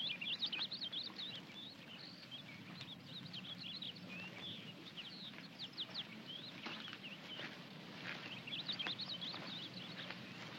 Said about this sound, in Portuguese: Lá está ele, veja. É um tentilhão.